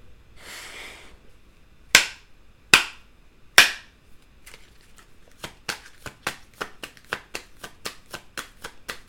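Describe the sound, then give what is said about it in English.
A deck of oracle cards being handled and shuffled: a soft papery rustle, then three sharp, loud slaps, followed by a quick run of many crisp snapping clicks, with no talk. “Let me go ahead and get a card from the Under the Roses deck.”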